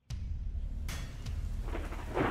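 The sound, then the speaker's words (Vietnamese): Heavy rain pours down with thunder, making a loud, steady rushing roar with deep rumbling underneath that swells louder toward the end. “Mưa và sấm sét bắt đầu trút xuống ào ào.”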